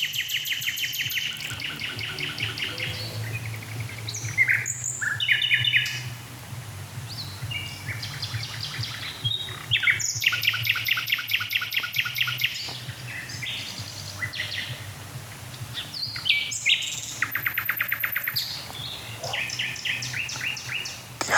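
A blackbird sings in a nightingale-like style, with bursts of bright whistled and chattering phrases. The bouts repeat for about twenty seconds, separated by brief pauses, and no voices are heard.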